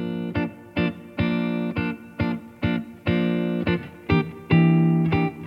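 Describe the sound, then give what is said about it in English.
A guitar plays a downbeat-heavy groove of many rhythmic, bright chord strums, with some chords held longer, at a steady, fairly loud level and with no voices. “By contrast, the guitar on the right goes with more of a downbeat-heavy groove that sounds like this.”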